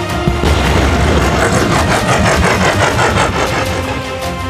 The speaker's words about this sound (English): They celebrated together as the quantum drive throttled them back to Earth.